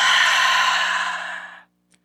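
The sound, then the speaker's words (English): A deep breath exhaled slowly through the nose during a guided breathing exercise, a steady, breathy hiss of about one and a half seconds that fades out, followed by a tiny faint click. “Take a deep breath in through the nose. Hold. Exhale”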